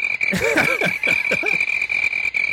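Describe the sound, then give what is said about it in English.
Crickets chirp loudly in a steady, bright, high-pitched trill that runs unbroken throughout. Repeated throaty croaking calls sound alongside it. “Crickets are so loud. I know that was very, very loud.”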